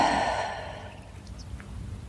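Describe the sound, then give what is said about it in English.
A deep breath during a guided breathing exercise: a slow, airy exhale that starts fairly strong and fades gradually into quiet over about a second. “Breathe and release.”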